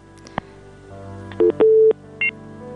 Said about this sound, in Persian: تماسی ناقد شد، بازم یک تماس دیگی را میگیریم.